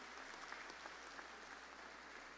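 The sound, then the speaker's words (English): Faint, steady applause from an audience at a high school ceremony in the British Virgin Islands honoring past principals, a continuous patter of many hands clapping at an even level throughout. “Please give them a round of applause for the work they have done over the years.”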